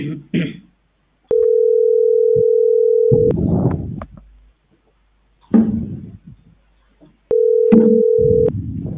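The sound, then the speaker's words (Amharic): A telephone rings down the line as two long, steady buzzing tones, the first nearly two seconds and the second shorter, with people talking in between. “ስልኩ በጣም ይጠራል።”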